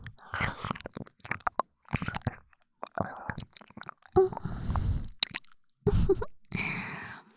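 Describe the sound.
Wet, intimate mouth sounds of nibbling and eating an ear: soft bites, smacks and crunchy chewing come in uneven bursts separated by brief pauses, mixed with soft whispering.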